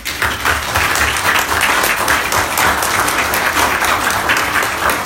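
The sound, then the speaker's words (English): An audience applauds election candidates. The clapping is loud and dense, holds steady for the whole stretch, and has no voices above it. “And I just want to give the candidates a hand around.”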